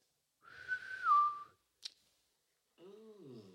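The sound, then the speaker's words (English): A single drawn-out whistle in a jungle, a clear high note held for about a second before dipping in pitch at its end, followed by a short click and a lower warbling tone. “a whistle in the jungle. Instantly he freezes and he looks around trying to figure out where this whistle is from.”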